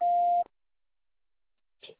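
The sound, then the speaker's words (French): An answering machine beep on a water utility's line for reporting water shortages: one loud, steady, mid-pitched tone lasting about half a second, then silence and a brief faint noise near the end. “C'est à vous après le bip.”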